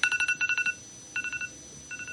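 An alarm clock beeps in quick groups of short, high, pure tones separated by brief pauses, clear over a faint steady hum.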